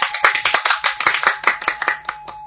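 Many hands clap in a steady, fast rhythm along to a Hindu devotional song to the goddess Kali. The claps are crisp and sharp, closely packed, and even in loudness throughout.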